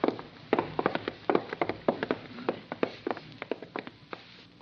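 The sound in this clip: Footsteps walking back to a safe: many crisp, evenly paced treading steps sound one after another throughout.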